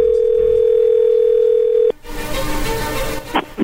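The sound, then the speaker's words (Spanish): Telephone dial tone heard while placing a call: one steady, loud, unbroken tone that lasts about two seconds and then cuts off abruptly, giving way to a noisy, rustling line sound. “Bien, vamos a llamarle entonces a Janet en este momento y vamos a ver qué pasa”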